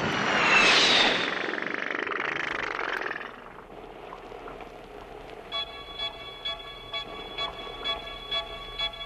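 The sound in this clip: Airplane taking off with a loud, broad rushing roar that swells over the first seconds, then drops away as a quieter, rhythmic tonal pulsing takes over.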